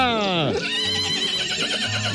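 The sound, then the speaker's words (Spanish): A mare on a farm neighs in a shrill whinny whose pitch slides sharply downward, followed by a dense, sustained harmonic sound. “Es la yegua de aquí, de la finca”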